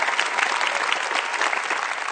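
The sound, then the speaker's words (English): Congregation clapping during a church sermon, a dense, even wash of hand claps that holds at a steady, fairly loud level for a couple of seconds with no voices breaking through. “You're like wanting to clap. I don't want to cut you off.”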